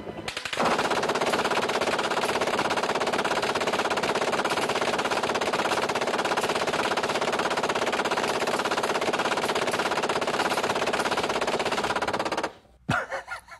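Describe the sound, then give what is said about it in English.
An M240 machine gun fires one long automatic burst of about 130 rounds in roughly 10 seconds. The rapid reports merge into a loud, continuous roar that stops abruptly. “Here is a guy shooting an M240 machine gun. The gunner will fire 10 seconds or 130 rounds.”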